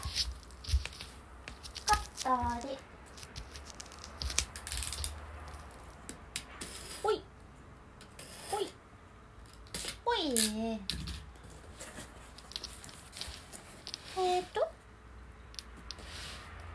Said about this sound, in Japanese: ホットカーペットくんを開けます